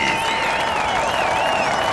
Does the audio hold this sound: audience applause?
yes